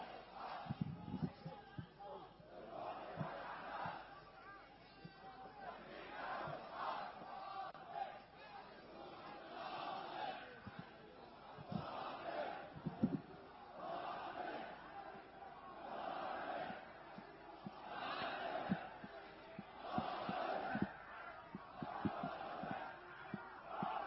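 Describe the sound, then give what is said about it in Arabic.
A large crowd at a gathering in Egypt chants slogans, many voices shouting repeated rhythmic phrases that rise and fall in steady waves throughout. “وهكذا تتحدث الجموع”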